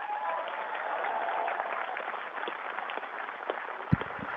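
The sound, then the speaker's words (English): Audience applause at the close of a science festival talk: a dense, steady wash of many hands clapping that holds at an even level throughout, with one sharper, louder clap standing out near the end. “And maybe a round of applause for Tim”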